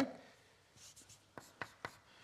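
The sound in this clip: Writing on a board during a lecture: faint scratchy strokes, then three sharp taps in quick succession, all fairly quiet.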